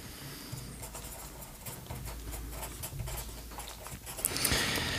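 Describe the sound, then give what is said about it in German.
Quiet scratching of a pen on paper as notes are written by hand, irregular short strokes under a soft background hiss, with no talking. “Ja, ich schreibe mit.”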